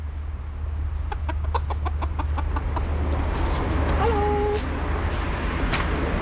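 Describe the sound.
Chickens clucking at a backyard coop during an egg check. A quick run of short, sharp clucks gives way to a longer drawn-out call, over a low steady hum.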